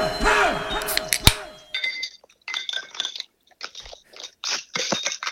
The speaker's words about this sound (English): My favorite part of any day is when I get to crack this can. I'm drinking the 16-ounce Monster Rehab Tea Lemonade.